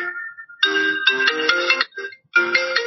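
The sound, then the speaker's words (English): A phone's electronic alert melody sounds alone and clearly, bright tones in a few short phrases separated by brief gaps. “I still have not figured out how to work notifications on my phone.”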